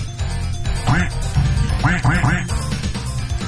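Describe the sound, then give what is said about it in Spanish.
Several nasal, buzzy duck quacks in quick succession, made by a person imitating a duck, sounding amid ongoing talk and background noise. “la persona que mejor imita el pato. Por favor, imita al pato”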